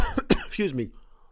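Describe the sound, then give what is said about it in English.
A person's cough: a couple of sharp, breathy bursts followed by a brief voiced throat sound, fairly loud, then trailing off into quiet. “Didn't see that cough coming. I'm sorry about that.”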